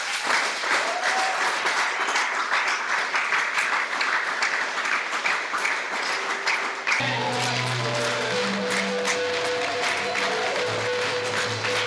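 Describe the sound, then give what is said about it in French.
Church audience applauding in acclamation during worship: a long, dense wash of clapping at steady loudness, joined partway through by sustained musical tones that continue beneath the applause. “Je veux qu'on acclame encore le Seigneur pour ça.”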